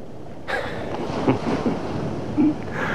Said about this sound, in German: Jede Nacht meterhohe Wellen. Haushohe Wellen. Turmhohe Wellen.